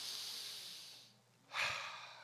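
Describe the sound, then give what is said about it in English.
Slow, audible breathing during a relaxation exercise: a long, airy breath that fades away, a short lull, then another strong breath, with no talk. “Let's breathe.”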